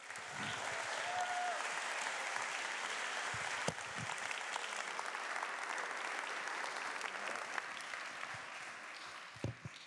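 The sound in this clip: An audience at a church gathering applauds to welcome a guest speaker, a sustained, even wash of clapping that holds steady for about ten seconds with no talk over it.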